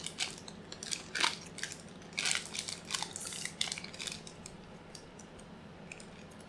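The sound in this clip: Crunching and chewing of a lime-flavored nut with a hard candy shell from a fiesta mix, with many sharp, crackly bites in irregular bursts and no talking.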